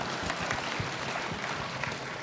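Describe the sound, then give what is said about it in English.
A church audience applauds an interpreter with a steady, dense burst of clapping that stays even and fairly loud throughout, with no talking heard. “Can you give him a big hand clap?”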